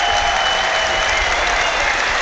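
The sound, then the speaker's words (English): Home crowd applauding at a rugby match, a dense, steady wash of clapping that stays loud and even throughout with no breaks. “And he gets the applause of the home crowd.”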